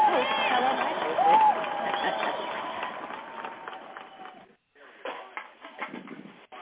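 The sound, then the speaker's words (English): A studio audience applauds and cheers a talk-show host's entrance: a dense, loud wash of clapping with a whistle early on, holding steady before breaking off abruptly. “Put your hands together for the woman of the hour, Dawn Nicoleone.”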